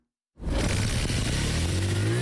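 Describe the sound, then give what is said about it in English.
A motorbike engine starts for a boda-boda taxi ride in Juba, South Sudan, kicking in abruptly after silence and settling into a loud, steady, rough drone whose pitch creeps slightly upward. “A cyclist starts his motorbike engine to pick up a passenger who signaled for a ride at a bodaboda stop.”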